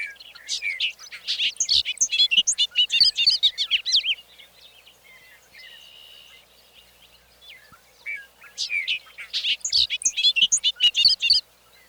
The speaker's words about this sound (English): Across the road, over the open field, a bobolink sings his last song of the evening.